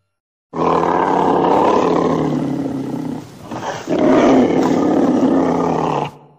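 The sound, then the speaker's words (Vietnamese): A white tiger roars in one long, loud, rough roar that sags briefly midway and then surges again at full strength before stopping, with no voices over it. “Một con bạch hổ ở đầu phóng tới và gầm lên, làm mọi người kinh hãi lùi lại.”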